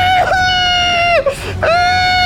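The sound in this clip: A voice imitates a baby crying, a sustained high tonal wail that dips in pitch, breaks off briefly, then rises and continues, loud and steady.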